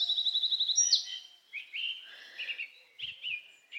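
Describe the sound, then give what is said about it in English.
Birdsong in a forest, quiet and sparse: a rapid, evenly repeated high trill first, then several shorter whistled chirping phrases separated by gaps of near silence. “you can also be in a forest with all its noises.”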